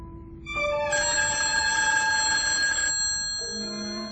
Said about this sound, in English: The telephone bell was ringing